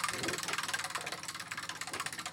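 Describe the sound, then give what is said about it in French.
A prize wheel spins during a quiz game, giving off rapid, evenly spaced ticks that repeat steadily from start to end. The clicking rides over a constant low mechanical hum. “La roue tourne, tourne, tourne, tourne, tourne.”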